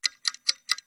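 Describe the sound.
A clock ticks at a quick, steady pace, with five crisp, bright ticks in one second. Each tick is followed by a softer trailing click, and it is heard alone.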